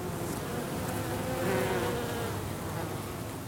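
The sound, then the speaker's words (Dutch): Wild bees, honeybees and hoverflies buzz while feeding on nectar from flowering ivy at a castle in Overijssel in late summer, a soft, steady, continuous hum with no voices. “Huib Koel ontdekte bij Kasteel de Haren, Overijssel, een bloeiende klimop die nectar biedt aan wilde bijen, honingbijen, zweefvliegen. Dus Huib bezorgt ons nog een heerlijk nazomers geluid.”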